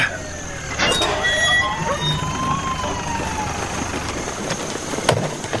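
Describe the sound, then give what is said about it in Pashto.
An ambulance arriving with its siren wailing in a steady, fairly faint sweep over an engine rumble, a few sharp knocks breaking in along the way. “د امبولانس غږ شو، لکه چې ډاکټر صاحب خالد را ورسید.”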